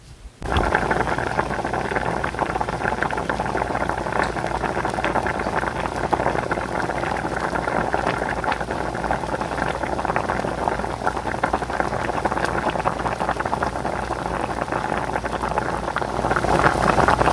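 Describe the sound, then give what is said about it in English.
Boiling water bubbling during cooking, a dense, loud, continuous bubbling hiss that holds steady and unbroken for about seventeen seconds, with no voices. “the bubbling of boiling water,”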